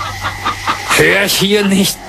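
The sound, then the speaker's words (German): Chickens cackling: a few short clucks give way to longer, wavering cackles that rise and fall in pitch, fairly loud and close. “Ja, das war Hühnergekacker.”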